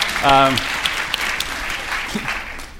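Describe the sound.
Audience applause breaks out after the crowd is asked to cheer for a performer's children in the audience. A brief voice rises at the start, then scattered, lively clapping carries on at a moderate level.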